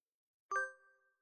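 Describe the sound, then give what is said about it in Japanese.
A smartphone app chime marks the end of a video recording: a single bright, bell-like ding that rings out with a lingering tone and fades to silence. “あ、このアプリ録画終了の音は鳴るんだ。”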